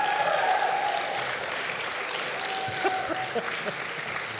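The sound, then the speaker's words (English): Steady applause from an audience welcoming a speaker to the stage, a dense, even clatter of many hands clapping that holds at a fairly constant level throughout. “So I would just like you to please put your hands together and welcome Mr. Stephen Paton to the stage.”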